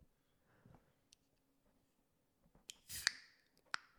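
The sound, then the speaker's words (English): Can of 5% rye lager cracked open: a few faint clicks and taps, then a sharp metallic crack with a short fizzing hiss, followed by another brief click, all alone in a quiet setting. “ASMR crack of the can.”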